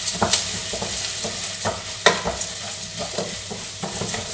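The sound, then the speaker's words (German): Risotto rice is stirred into glassy onions sizzling in olive oil in a pan. A steady bright sizzle runs throughout, broken by many scraping stir strokes at an irregular rhythm. “jetzt hauen wir den Risotto-Reis in die glasigen Zwiebeln und rühren die ganze Sache einmal schön kräftig um.”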